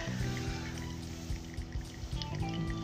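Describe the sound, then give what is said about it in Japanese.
Coffee dripping into a server while iced coffee brews over ice: a faint, continuous trickle with a scattering of soft little drips and no voices. “でサーバーにコーヒーが落ちてるわけなんですけれども”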